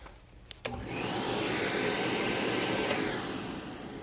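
A vacuum cleaner starts up after a couple of short clicks, its motor spinning up within a second into a loud, steady, rushing whine that holds to the end.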